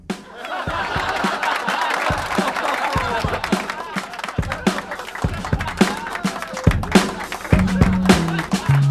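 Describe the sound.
Laugh track of a cheering audience, a dense, steady swell of laughter, chatter and scattered clapping that runs for several seconds at moderate loudness.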